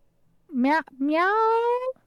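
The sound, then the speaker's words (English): A person imitates a cat's meow in a low-pitched voice: a short, rising meow, then a longer drawn-out one that holds steady and trails off, fairly loud. “meow. I have to do it in, like, super low tone in order for it to kill, like, actually get it properly.”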